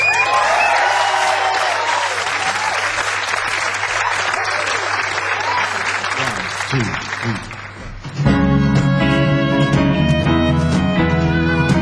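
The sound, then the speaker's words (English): A crowd applauds and cheers as a band is welcomed onstage. The clapping is dense and loud and keeps up for about eight seconds before music starts playing. “Please put your hands together and welcome the wonderful Idlewild.”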